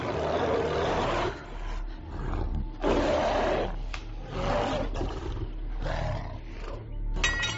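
A wild beast roars savagely after smelling blood: several long, rough, loud roars with short breaks between them, alone without talk.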